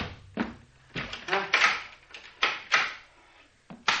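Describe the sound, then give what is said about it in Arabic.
Knocking on a door in a vintage Egyptian radio drama effect: an uneven series of many sharp raps and thumps, some in quick clusters, separated by brief quiet gaps. “الباب يخبط. الباب بيخبط. طب ما يخبط. طب قوم افتح احسن”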